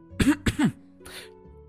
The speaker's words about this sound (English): And you see Oakley clear their throat.